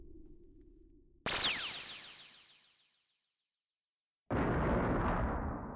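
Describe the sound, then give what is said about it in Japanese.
A dramatized explosion rocks the scene: a low rumble gives way to a sudden loud blast whose ringing tail fades over several seconds, then a second loud burst hits and holds. “何かが爆発した衝撃が伝わってきます”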